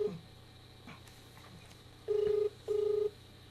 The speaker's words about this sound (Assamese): মই মোবাইলৰ পৰা তেখেতক সংযুক্ত হ'বলৈ তেখেতৰ সৈতে চেষ্টা কৰিছোঁ